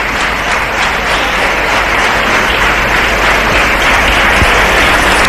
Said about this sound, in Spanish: empiezan a salir ya los galardonados. Hay aplausos.